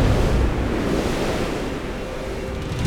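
Strong wind rushing in a steady, loud, broad roar that dips a little midway and swells again at the end.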